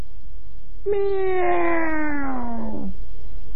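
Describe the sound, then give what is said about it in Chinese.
A human voice imitates a small cat's meow: one loud, drawn-out, nasal call whose pitch slowly falls before it cuts off. “喵！猫啊！刚才这猫在他脚脖子上蹭痒痒呢。”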